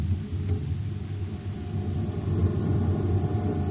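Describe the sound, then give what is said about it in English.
A generator aboard a lab ship runs with a steady, low droning hum and rumble that holds an even level throughout. “All right, Doctor. Turn on the generator.”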